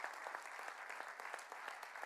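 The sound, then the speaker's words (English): An audience applauds continuously, a dense, even patter of clapping with no breaks, fairly faint throughout. “We want to give you a round of applause.”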